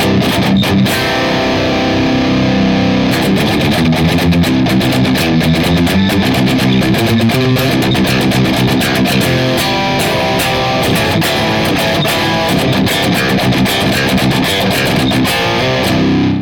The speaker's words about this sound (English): in stereo impulse response through the Boss IR200 sounds like this.